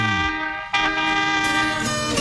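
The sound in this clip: A vehicle horn blares for drivers out on the road, a loud sustained chord of stacked tones that shifts briefly near the start and then holds steadily for about two seconds.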